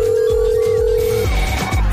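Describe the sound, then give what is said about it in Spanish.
A telephone rings after a caller's number is dialed: one long steady ring tone lasts about a second over loud rhythmic background music, then cuts off while the beat continues. “Estamos marcando por acá a ver si nos contestan.”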